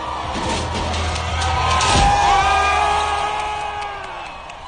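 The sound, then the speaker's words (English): A crowd of protesters cheers as they topple a statue in a city street, a steady roar of many voices with whoops and yells rising and falling over several seconds. “The crowd of protesters cheered.”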